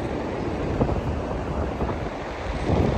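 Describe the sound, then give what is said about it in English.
Strong wind blowing at the beach buffets the microphone in a continuous, loud, rough roar with gusty swells. It lasts the whole clip and no one speaks. “I think the wind is very strong, so it's probably you can hear it”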